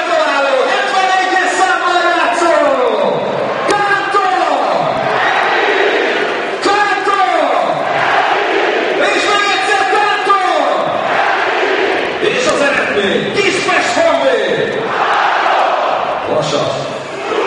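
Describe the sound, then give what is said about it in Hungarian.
A football crowd at the Kispest stadium roars and chants as Honvéd fans celebrate a goal against Vasas late in the match; dense massed voices rise and swell continuously, loud throughout. “És hallhatják önök is a hangos beszélőt, hallgassák csak!”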